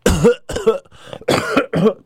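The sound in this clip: Acted coughing at a boxing physical's hernia check: a voice imitates the sound with five harsh, throaty bursts in quick succession, the third one fainter, and no other talking.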